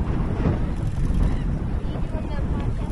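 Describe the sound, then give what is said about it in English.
Wind blowing straight into a microphone outdoors at a playground: loud, continuous low rumbling and buffeting that swells and churns unevenly and drowns out everything else. “I'm still trying to record, but I think I'm just going to have to hack this part out with all the wind.”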